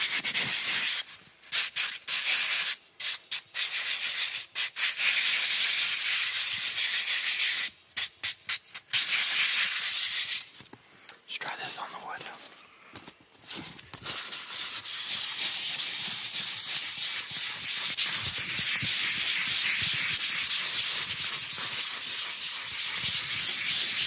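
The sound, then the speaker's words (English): P400 fine-grit finishing sandpaper rasps against a surface, first in choppy back-and-forth strokes with brief pauses, then in a steadier, continuous hissing scrub. “We have P400, a very high grain. This is like the finishing sandpaper.”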